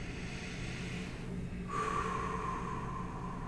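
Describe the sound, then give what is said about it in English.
Faint breathing during a slow breathing exercise: a long, soft inhale, a short pause, then a slightly louder, breathy exhale that stretches out to the end. “you're going to slide up your thumb and you're going to breathe in. You're going to slide down your thumb and breathe out.”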